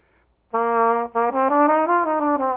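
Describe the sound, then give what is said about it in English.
A trumpet plays slurred notes without tonguing, so each pitch glides smoothly into the next. After one sustained tone and a short break, a connected line steps gradually upward. The tone is bright and full, with no voices. “you don't tongue, it's called slurring, and that sounds like this.”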